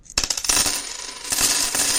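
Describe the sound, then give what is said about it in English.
A handful of coins drops and scatters, giving a dense run of bright metallic clinks and jingles that lasts about two seconds, with no talking. “I'm going to give you this handful of coins and throw you out the door.”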